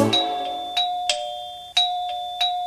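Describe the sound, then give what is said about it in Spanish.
A doorbell rings with a series of bright electronic chime strikes over a sustained ringing tone. Each strike has a sharp attack that slowly decays, repeating several times with no voices. “¿Qué es? El timbre alguien tocó.”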